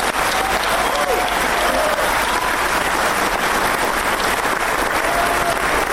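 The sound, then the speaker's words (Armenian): A large audience in a packed hall breaks into sustained applause at the end of a film screening. Dense, loud, steady clapping continues without a break from start to finish. “Ֆիլմի ավարտին հանդիսատեսն անընդ մեջ երկար ծափահարություններով կրկին ողջունեց մեծանուն կինոռեժիսորին Արտավազդ Փելեշյանին։”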